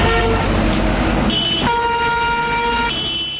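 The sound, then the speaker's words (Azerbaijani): Car horns blare over dense Moscow city traffic: several long, steady horn blasts overlap and follow one another above a continuous loud rumble of engines and road noise. “Moskvada maşınların səsi, təyyarələrin uğultusu, tikintilərdəki hay-küy bir-birinə qarışıb.”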